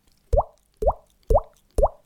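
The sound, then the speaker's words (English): Four evenly spaced plopping drips form a teardrop-falling sound effect. Each is a short, soft droplet with a quick upward-bending tone, separated by brief silences. “Five out of five teardrops, which sounds like this.”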